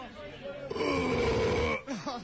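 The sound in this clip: A man lets out a long, loud belch on stage at a live event, a single sustained low, rumbling burst lasting about a second, followed by a brief vocal sound.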